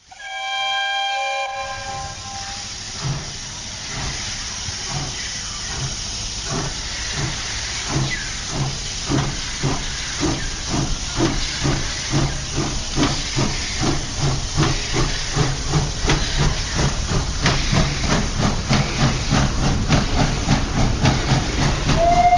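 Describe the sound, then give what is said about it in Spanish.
A steam train starts with a brief whistle, then hissing steam builds into loud, rhythmic chuffing that grows faster and heavier as it runs at full speed. “Ponemos nuestro tren a toda máquina.”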